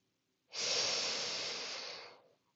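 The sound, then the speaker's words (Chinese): A single long exhale from a yoga cooling-breath exercise, heard as a soft, airy hiss. It starts abruptly, holds steady for under two seconds, then tapers away, alone with no talk. “吸气，感受那清凉的空气；吐气，把身体的燥热都释放出来。”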